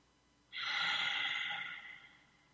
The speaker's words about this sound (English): So if you can all just, everybody, just take a deep breath in.